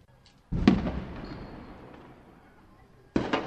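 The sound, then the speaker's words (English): Two sharp, loud reports of live-ammunition gunfire from Israeli military M16 rifles near homes, each crack followed by a long rumbling decay. “That sounds like live ammunition.”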